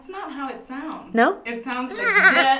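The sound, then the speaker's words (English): A goat bleat sound effect used to censor a swear word: a few short, wavering, nasal bleats, one shaky and trembling, overlapping and alternating with people talking. “The little goat will blur you out.”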